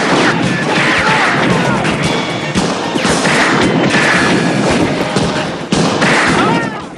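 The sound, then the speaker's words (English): Gunfire in a street shootout, with men shooting from cover behind a mailbox at attackers across the street. Loud, dense bursts of shots and crashing impacts run almost without pause throughout. “Taking cover behind a mailbox, Shriker and Kersey repeat fire at punks across the street who fall like pins.”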